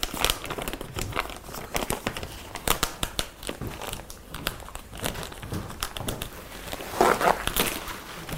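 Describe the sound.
Gift-wrapping paper crinkles and rustles as a present is unpacked, a continuous run of crackly, irregular crumpling sounds with several louder bursts, moderately loud throughout.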